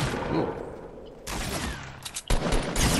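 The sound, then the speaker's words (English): Gunfire in the video game Fortnite Battle Royale: loud, harsh bursts of rapid shots. A stretch of near quiet follows, then several more sharp volleys. “I got shot. Wow. What? Again, I got killed, I guess.”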